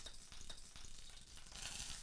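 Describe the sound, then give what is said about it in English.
One small onion sizzles in a little oil in a pan, giving a steady, dense frying hiss that swells into a brighter fizz toward the end. No voices are heard. “So now for our aromatics. I'm going to add 1 small onion.”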